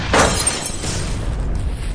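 A glass bottle of ice-cold drink, still unopened, shatters in a hand: a brief bright crash at the start, then a steady wash of noise.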